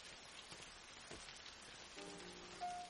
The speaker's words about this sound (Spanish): Llueve.